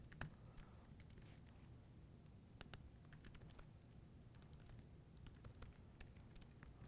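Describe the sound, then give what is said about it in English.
Soft keyboard clicks as a video title is typed on a computer keyboard, quiet irregular keystrokes in short bursts with brief pauses. “And then once you've done that for a title, it lets you type in sort of the text.”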